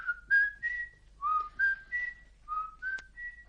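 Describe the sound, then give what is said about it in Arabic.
Whistled signal from a person's mouth: three repeated phrases, each a quick run of two or three clear notes climbing in pitch, fairly loud over a faint low hum. “أطلق صفارة هكذا”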